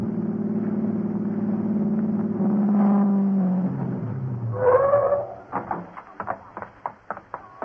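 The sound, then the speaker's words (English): A car engine starts after two disconnected wires are replaced, giving a steady low hum that swells briefly, then gives way to several short, sharp bursts. “a moment to replace the two wires you disconnected and get Larry's car started.”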